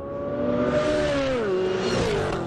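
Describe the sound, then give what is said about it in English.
Engine drone of General Motors cars in a high-speed racing demonstration at a proving ground in Milford, Michigan. The sound is a loud, sustained whine with strong harmonics. Its pitch drops around the midpoint and slips lower again near the end. “At the General Motors Proving Grounds in Milford, Michigan, President Trump took in high-speed racing demonstrations.”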